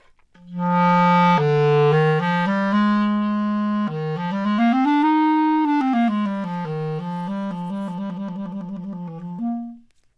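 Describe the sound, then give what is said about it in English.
A clarinet plays in its low register in a classical style. The solo line is warm and sustained, with a legato phrase that climbs and then falls back, before it ends on a short final note. “in a more of a classical setting, the clarinet in the lower register would sound like that.”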